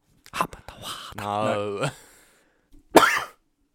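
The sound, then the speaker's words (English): A person's abrupt cough or sneeze: a sharp, harsh burst near the end, preceded by short throaty vocal sounds and a drawn-out voiced noise, then a brief pause. “I don't know whether that was a sneeze or a cough.”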